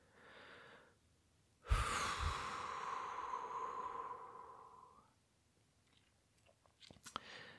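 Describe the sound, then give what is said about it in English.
A slow exhale, a long breathy hiss that starts abruptly and tapers off over about three seconds, with a softer breath before it and a few faint clicks after. “I have here in my notes to slowly exhale, and so that's exactly what I'm going to do.”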